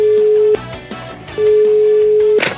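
A telephone line tone sounds as a call is dialed: two long, steady, mid-pitched tones, each lasting about a second, separated by a short break, with faint other sounds underneath.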